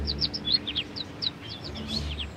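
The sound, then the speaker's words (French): A bird chirps in a story as it comes back: many quick, high, bright tweets in a busy, irregular run over a faint low hum. “se tint debout dehors et attendit que l'oiseau revienne vers lui. Il finit par arriver et James en fut très excité.”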